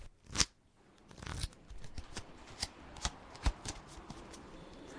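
Playing cards being dealt during a card game, heard as quiet crisp snaps, flicks and papery slides at irregular intervals, many in a row over a faint background.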